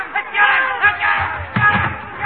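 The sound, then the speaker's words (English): An angry mob shouting in the street, many voices yelling together in loud, overlapping bursts that swell and ease off several times. “The crowd. They're after me.”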